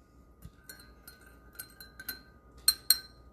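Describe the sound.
A spoon clinks against a cup while stirring tea with milk: a series of faint, bright, glassy taps at an uneven pace, the last two noticeably louder.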